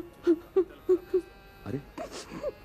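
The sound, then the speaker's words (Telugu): A woman at a doctor's with her sick child cries in distress: four short, evenly spaced whimpering sobs, followed by longer, broken, voiced crying. “ఏంటమ్మా, మీరు ఎందుకు ఏడుస్తున్నారు?”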